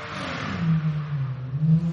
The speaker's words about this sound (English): After that guy shifts into fourth gear.